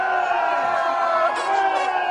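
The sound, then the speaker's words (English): Hockey fans in the streets of Winnipeg, Manitoba, cheering over the NHL's Atlanta Thrashers moving to the city: a steady, loud wash of crowd noise with scattered whoops and mingled voices throughout. “They're cheering because the NHL's Atlanta Thrashers are moving to Winnipeg.”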